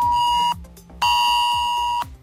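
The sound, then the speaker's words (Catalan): A mobile phone emergency alert tone arrives with an SMS flood warning telling everyone to stay home: a loud, steady, high electronic beeping tone sounding in two bursts, the second longer, with no voices. “És així quan t'arriba l'SMS i aquesta senyal d'alerta.”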